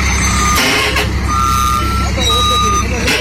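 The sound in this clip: Reversing beeps from a truck backing up: long, steady, high-pitched tones sound in a few separate runs over loud, continuous engine and road noise.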